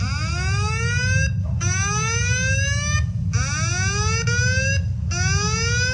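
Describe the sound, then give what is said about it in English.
A lockdown alarm sounding in a children's ministry building: loud electronic whoops that sweep upward in pitch, repeating in cycles of about a second and a half with brief gaps, over a constant low rumble. “The lockdown alarm would go off, and it would sound like this.”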